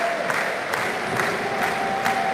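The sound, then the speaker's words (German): VfB Stuttgart fans in the Cannstatter Kurve chant during a football match in a packed stadium, a broad crowd roar broken by regular, evenly spaced rhythmic beats. “Stuttgarter Publikum steht jetzt komplett, steht auf, wenn ihr Schwaben seid, stimmt die Cannstatter Kurve an.”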